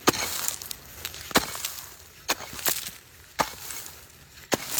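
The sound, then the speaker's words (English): Sharp chopping strikes of an ice axe cutting steps out of a glacier ice cave on the Tasman Glacier, several crisp, bright impacts at an uneven pace with brief icy scraping between them. “I am cutting my way out of an ice cave that I'm trying to make safe for our clients on our heli hike. So, give a few more swings of my axe.”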